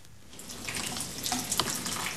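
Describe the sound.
Water pours steadily as flowers are watered, a soft continuous hiss and splash with small bubbling trickles on top, fairly faint throughout.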